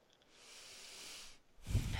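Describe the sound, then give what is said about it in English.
A person takes a deep breath: a long, airy hiss of moving air, then a brief pause and a louder, rougher burst of breath with a low, throaty edge. “Quite a deep breath there. I know. I was like, I have to take it in.”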